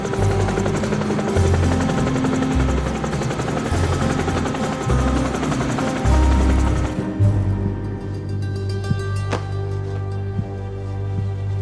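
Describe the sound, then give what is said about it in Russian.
A helicopter's rotor beats out a loud, rhythmic low thumping for several seconds. The sound then thins into a steadier, quieter mechanical drone. No one speaks. “Нет, сэр, вертолет там сзади.”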